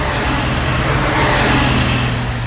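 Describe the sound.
A convoy of cars driving straight past without slowing down makes a loud, steady roar of engines and road noise that stays continuous, with no clear gaps or changes in level.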